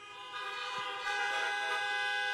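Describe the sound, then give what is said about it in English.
Car horns honking together during a church sermon, a loud, continuous blare of overlapping tones held for about two seconds, growing slightly louder partway through, with no talking. “Toot your horn.”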